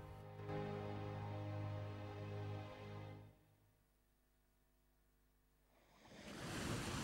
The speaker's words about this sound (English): A wave washes up on a sandy beach.